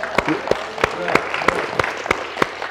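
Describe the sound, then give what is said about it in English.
Hand clapping from a church audience after a sermon, a few sharp claps at a fairly steady pace rather than a dense roar. “You ought to give yourself a big hand clap for that,”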